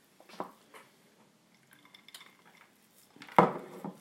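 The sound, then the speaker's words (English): Sultanas and mixed peel being worked into dough in a bowl: faint, soft scraping and a few light knocks, with one louder clatter against the bowl near the end. “sultanas in it now. So we're just mixing all that in. And then when we've got those in, we can add in the mixed peel as well.”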